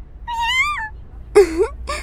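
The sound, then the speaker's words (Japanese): Cat meowing three times: first a long wavering call, then two shorter cries after a brief pause, with no talk. “猫さん、おいで。”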